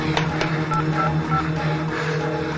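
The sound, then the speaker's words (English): Touch-tone beeps from a telephone being dialed for an emergency call in a house, mixed into a dense, continuous wash of background sound without clear gaps between the tones. “He picks up a phone and dials.”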